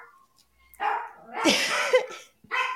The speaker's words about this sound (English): You got to attend to your lonely dog over there.